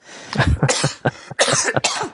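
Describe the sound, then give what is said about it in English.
A person coughing in a rapid series of several harsh, loud bursts with brief gaps between them, heard alone without talk. “Excuse me, I'm still coughing a little bit.”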